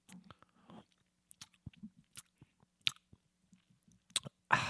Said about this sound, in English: I think what podcast listeners really love is hearing someone eat food. Exactly. So let's all listen to see what this cornbread tastes like.